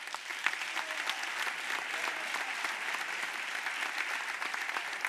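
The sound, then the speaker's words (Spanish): Audience applause at a motoring gala: dense, steady clapping that holds at an even level throughout, with no breaks. “estos son los representantes de esta provincia y este es el aplauso de vuestra gente.”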